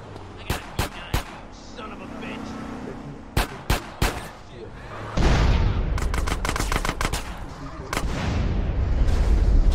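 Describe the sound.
Video game gunfire: crisp, sharp cracks in two quick bursts of three, then a louder steady rumble with many rapid shots layered over it.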